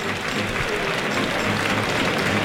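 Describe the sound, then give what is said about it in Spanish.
Crowd applause for a bullfighter from Alicante in the bullring during the fifth bull of the afternoon, a steady, even wash of clapping at moderate level throughout. “Serían palmas, por tanto. Ovación en el primero de su bote... para el torero de Alicante. Palmas en este quinto de la tarde.”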